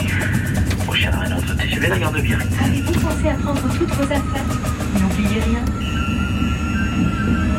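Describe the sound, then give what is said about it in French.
A TGV high-speed train runs, heard from onboard as a loud, steady rolling rumble with faint whining tones above it and indistinct voices partway through. “Soyez attentifs à vos bagages lors des arrêts intermédiaires. L'équipage du TGV nous souhaite une agréable journée au voyage qui descend en gare de Biarritz.”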